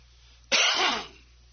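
A single harsh throat clearing from someone with something caught in the throat after catching a slight chill: a loud, rasping burst of about half a second that trails off, heard alone over a faint low hum.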